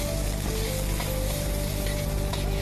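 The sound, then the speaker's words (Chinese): Steady, loud sizzling of fish bones and fish meat stir-fried in hot peanut oil in a wok with scallion and ginger, a continuous hiss lasting the whole clip with no talk. “炒锅上火，加适量花生油，油烧热以后用葱姜爆锅，随后放入鱼骨和鱼肉翻炒”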